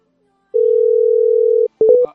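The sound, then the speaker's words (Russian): A telephone dial tone sounds as one steady, pure, mid-pitched hum for about a second, breaks off, then a quick cluster of short beeps follows as a number is dialed. “Набираю.”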